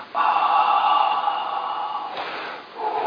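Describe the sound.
A forceful breath blown out during a Catholic talk likening breath to the Holy Spirit: a steady, airy whoosh sustained for about two seconds, a brief break, then a second shorter blow starting near the end. No talk over it.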